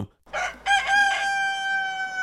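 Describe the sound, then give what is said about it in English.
A human voice imitates a rooster crowing, with a short clipped opening syllable followed by a long, sustained, wavering high call that holds steady to the end, heard alone. “no, that's a rooster”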